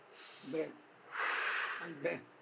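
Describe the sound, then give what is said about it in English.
A single breath drawn between chanted Sanskrit verses: a soft, breathy hiss lasting about a second, set between brief voiced sounds just before and after it. “You are all alone chanting, reciting the slok. Nayam Sriyanga Unitantara. Take breath.”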